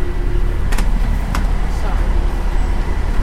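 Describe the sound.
Express bus being boarded: a steady low engine rumble runs throughout, broken by two brief bright hissing bursts early on, with faint voices underneath.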